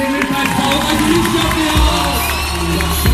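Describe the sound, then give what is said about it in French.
A crowd cheers and shouts as Turkish politician Selahattin Demirtas enters a campaign rally hall, a dense, loud roar of voices and whoops that stays steady throughout. “Lorsqu'il entre enfin dans la salle, Selahattin Demirtas reçoit un accueil de rockstar.”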